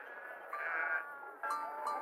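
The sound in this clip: Sheep bleating in a pasture: two faint, wavering, nasal bleats with a short pause between them, over quiet background.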